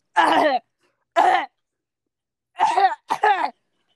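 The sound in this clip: A person clears their throat, as if something is caught in it, in several short rasping bursts separated by brief silences, the last two coming close together.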